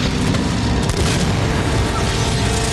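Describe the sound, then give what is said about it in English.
Anti-aircraft fire bursting around a plane in a video game. A loud, dense barrage of booms and rumbling blasts runs without a break through the whole clip. “What the hell was that? Oh damn, they followed us. Anti-aircraft fire?”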